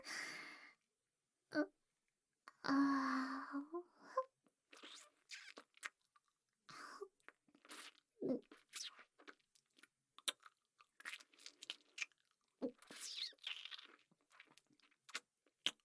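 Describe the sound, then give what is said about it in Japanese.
Chewing of soft food that yields more flavor the more it is chewed: many faint, wet, crunchy mouth sounds in irregular bites, with occasional breaths between them. “なんか絶妙に柔らか。噛めば噛むほど味が染み出てくる。”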